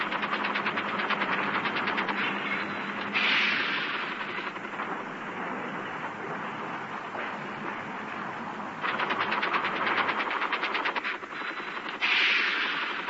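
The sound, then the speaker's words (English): Battle sounds of sustained automatic gunfire, from the 1968 Tet Offensive in Saigon at night: a dense, continuous crackle of rapid shots that swells into louder bursts several times, with no voices. “All around him, the sound of battle in the early hours of January 31st, 1968, heralded the arrival of the 1968 Tet Offensive.”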